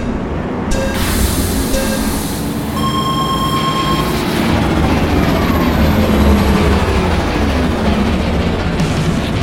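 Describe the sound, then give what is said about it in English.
A futuristic racing spinner vehicle roars loudly and steadily, a dense, wind-blown rush with thin high whining tones riding over a deep low rumble. The sound holds at full strength throughout, with no voices. “The scream of this spinner catching on the wind just right.”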